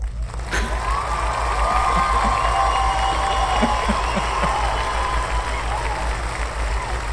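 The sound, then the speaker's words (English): An audience applauds and cheers for Lamb Telecom. Steady clapping and crowd noise fill the whole stretch without a break. “I want everyone in the audience to give it up for Lamb Telecom.”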